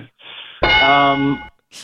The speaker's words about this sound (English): I was hoping to get one of those bell rings.